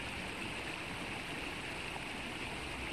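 Rushing river water in a guided relaxation: a continuous, even hiss of flowing water, faint and unbroken, with no voices over it.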